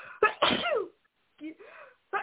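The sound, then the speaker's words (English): A single sneeze bursts out sharply, with short voiced vocal sounds following it after a brief pause. “wait, I'm going to sneeze, I think.”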